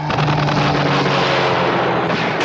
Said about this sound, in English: Give me my gun. Get the gun! Got a gun. And he fires it.